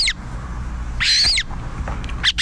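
A Montagu's harrier, a rare UK raptor, gives a few high, thin, shrill cries, one longer and wavering, over a low rumbling background.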